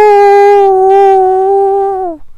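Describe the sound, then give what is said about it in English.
A coyote howl near a back porch at night: one loud, clear, sustained tonal howl that holds a steady pitch, then slides down and breaks off at the end. “they heard some of the distant coyotes howling, and some of the coyotes on the back porch responded back with a rather strong”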